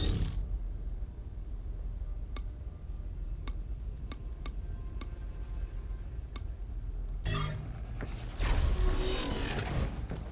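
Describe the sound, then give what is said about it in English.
Elevator shaft machinery gives a steady low mechanical rumble with a series of sharp, isolated clicks. Later it turns to a louder rushing, creaking grind. “That's useful. That's the elevator shaft.”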